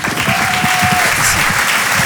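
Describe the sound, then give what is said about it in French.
A comedy club audience claps loudly and steadily for a comedian. The applause is a brief, dense patter of many hands that holds at an even level for about two seconds. “Vous pouvez l'applaudir très fort pour son premier passage sur Rire et Chanson.”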